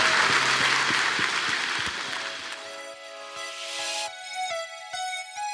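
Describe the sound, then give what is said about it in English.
A church audience applauds for a chaplain with a dense, steady clapping wash that thins after a few seconds as music with sustained tones comes in. “Come on, church. Can we just give it up for Chaplain Matt?”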